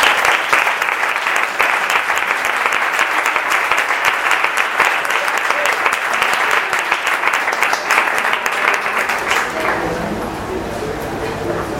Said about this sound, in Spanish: Un fuerte aplauso para Patricio Hidalgo.